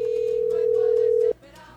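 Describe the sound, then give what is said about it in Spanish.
A steady, loud single-pitched telephone line tone after a call is dialed by a radio host to reach a listener, holding unbroken for over a second before cutting off into faint background hum. “Vamos a marcar por aquí, por aquí, por aquí, por aquí, por aquí, por aquí. Y ahí está marcando.”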